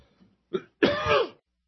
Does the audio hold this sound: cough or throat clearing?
yes